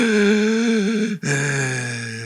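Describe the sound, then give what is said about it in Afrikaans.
A voice imitates the heavy, mechanical breathing of a masked movie villain, with two long, drawn-out breaths split by a brief pause. The rasping sound is loud and steady. “Enige Star Wars fans. Nee, Darth Vader. Het jy hem al oor asemhaal?”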